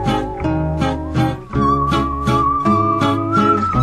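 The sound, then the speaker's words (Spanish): A man whistles a tune with a clear, sustained high melody line. It is carried over a regular rhythmic pulse and stays fairly loud and continuous throughout. “Pero es un boludo que silba lindo, dice Don Romero.”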